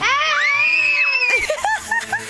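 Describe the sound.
A group of friends shouting: a high, wavering scream rises and holds, then breaks into a burst of overlapping excited yells and calls.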